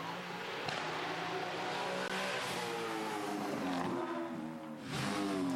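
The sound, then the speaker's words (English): A race car engine drones and revs, the Australian-built endurance racing GT special lapping Mount Panorama at Bathurst in 12-hour race qualifying; the loud, steady engine note climbs and drops in pitch, dipping briefly near the end. “This is the Superglass Racing IRC GT, Aussie built and developed endurance racing special”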